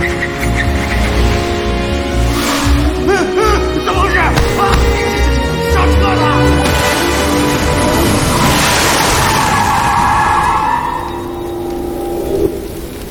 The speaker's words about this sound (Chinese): 隧道口要左拐急转弯， 如果能超车，或许能。 慢点，他速度太快，前面要急转弯了。